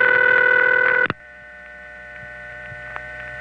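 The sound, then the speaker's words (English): An unusual telephone ring sounds as a steady, buzzy, harmonic tone for about a second, then cuts off abruptly and leaves a low electrical hum on the line. “But it rang like this. A ring which, when I first heard it, sounded so strange it sorta creeped me out.”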